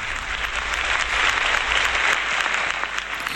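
Sustained audience applause welcomes a veteran female singer onto the stage at a live song concert, a dense, even clatter of many hands that holds steady loudness throughout.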